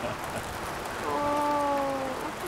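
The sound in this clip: Rain falling in a continuous, even hiss that stays steady from start to end, with no talk over it.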